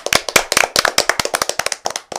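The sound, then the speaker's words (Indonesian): Brisk clapping for children who have just sung a song, with many sharp, loud claps in a quick, fairly even rhythm and no talk. “Anak-anak, kalian telah menyanyikan lagu Tebak Isi dengan penuh semangat. Tepuk tangan untuk semua.”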